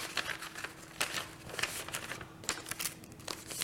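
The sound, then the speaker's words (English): Paper crinkles and rustles as a mail-in ballot envelope is sealed: a few quiet, crisp handling sounds with nothing else heard. “Put it inside of your envelope. A long time ago. You also have an I voted sticker. Keep that sticker just to let everybody know that you voted. Put it on your lunchbox. So once you seal it.”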